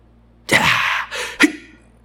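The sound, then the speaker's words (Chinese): A voice imitates the forced anti-G straining breath a fighter pilot uses under high G, Valsalva-style. A hard, hissing exhaled burst is followed by a shorter puff, then a sharp, clipped grunt. “这种呼吸，有没有用憋气、用努泽效应，利用提高胸腔和腹内压去提升你的血压”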